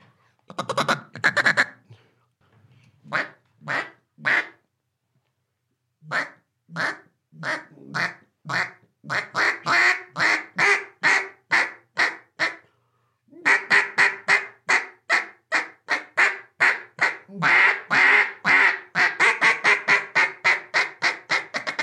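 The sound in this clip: Duck hunting call blown in many quacking notes, grouped in runs with short pauses between them. Later runs come faster and denser, with rhythmic, nasal, fairly loud quacks and no talking.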